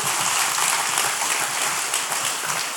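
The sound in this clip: A church audience applauds: a thick, steady wash of many hands clapping with no breaks, bright and sustained.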